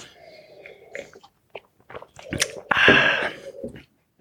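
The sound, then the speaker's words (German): Someone takes a sip of a drink while tasting it: a few small clicks and mouth smacks, then a longer, noisy slurp before it goes quiet. “Ich nehme noch mal einen Schluck.”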